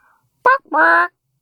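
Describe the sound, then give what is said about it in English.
A person vocally imitates a chicken call with two loud, harmonic vocal bursts: a short clipped one, then a longer, sustained, slightly nasal tone, heard alone. “What do you think your chicken name would be? I think mine would sound something like this.”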